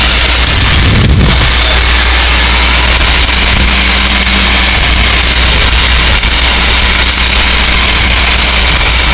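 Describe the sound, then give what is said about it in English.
An engine revs as a hydrant crew gets ready before rolling out with water: a loud, steady, continuous roar, with a low thump near the start and a faint droning tone later. “All right, here goes the revs now.”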